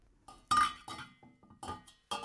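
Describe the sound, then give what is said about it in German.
Clinking of a stirring implement against a pot of Swiss cheese fondue, several sharp metallic knocks at irregular intervals with quiet gaps between them and no talk. “So, noch einmal umrühren. Jawohl, ja, das ist lecker. Und noch einmal umrühren.”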